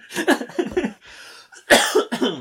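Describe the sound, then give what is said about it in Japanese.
One person gives a few loud, harsh coughs in quick succession. A brief pause falls between the bursts, and no other sounds are heard. “あ、咳しちゃった。”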